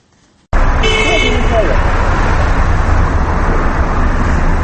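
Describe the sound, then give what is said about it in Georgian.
Dense Moscow traffic jam: a steady, loud roar of engines and road noise fills the whole clip, with a brief car-horn toot sounding near the start. “მანქანების საწობი, საყვირების ხმა და მძღოლების გაბრაზებული გინება.”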